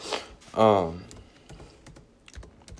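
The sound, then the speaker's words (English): Quick typing on a computer keyboard: a run of light, irregular clicks with a brief vocal sound near the start, and the tapping continues to the end. “Sorry, hold on, I'm typing real quick.”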